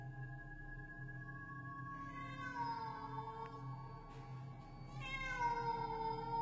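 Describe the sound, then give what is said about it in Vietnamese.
A black cat yowls eerily at night: two drawn-out, wavering meows, the second louder and near the end, sounding over a steady low hum. “Ở bên kia có tiếng mèo kêu vang lên trong đêm ghê rợn.”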